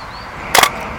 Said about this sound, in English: All right, first shot taken f8 500th of a second.